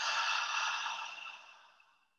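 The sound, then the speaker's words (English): A soft, airy exhale through an open mouth during a guided breathing exercise, steady at first and then slowly fading out over about two seconds. “take a breath in through your nose and open mouth, exhale.”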